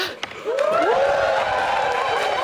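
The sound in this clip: Studio audience cheering and applauding wildly, doing the wave, at news that Tucker Carlson and Fox News Media are parting ways; a brief quieter start gives way to a loud, sustained roar with rising cheers.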